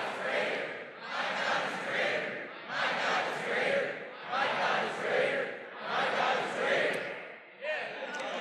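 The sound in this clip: An audience shouts a phrase together in unison, a series of loud, evenly spaced crowd shouts with short gaps between them, each burst rising and falling in the same rhythm.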